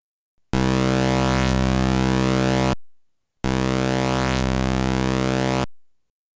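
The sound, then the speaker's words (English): Retro sound-chip envelope tones from an AY chip and then a YM2149 sound as two matching, steady buzzing notes split by a brief silence. The first is slightly dirtier, the second cleaner. Each holds its pitch with a small shift in its upper timbre partway through. “In each example, the first sound you hear is the AY chip with the dirtier sound, and then the second sound you hear is the YM with the cleaner sound.”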